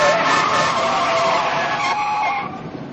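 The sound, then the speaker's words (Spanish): A car skids to a stop beneath a train, its tires giving a loud, sustained screech that holds steady and then fades at the end. “Jimmy detiene el coche debajo del tren.”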